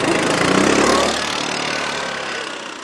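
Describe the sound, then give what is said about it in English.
A snow grooming machine's engine drones loudly as it approaches across a Nordic ski trail. The mid-pitched roar is strongest early on, then eases and steadily fades toward the end. “But toward the end of the ride, when our trail crosses a Nordic ski trail, a grooming machine approaches.”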